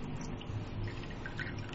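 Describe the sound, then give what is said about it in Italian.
Tea being poured into a cup makes a faint, continuous liquid trickle with small splashy textures, steady throughout the brief pour. “I did myself this tea. I hope that this could be good for Chinese taste. Just I am pouring it myself.”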